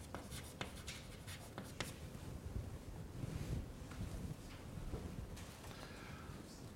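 Handwriting during a maths lecture gives a faint, continuous scratching with many short strokes, quiet and steady, with no speech over it.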